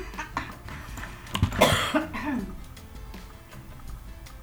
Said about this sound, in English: It's just every once in a while I get a cough.